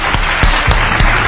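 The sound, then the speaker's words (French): Applause from an enthusiastic game-show crowd greeting a contestant's win: a short burst of dense, lively clapping at full strength throughout, with no speech over it. “C'est donc une victoire excellente de Monsieur Valentin, sous les applaudissements de la foule en délire.”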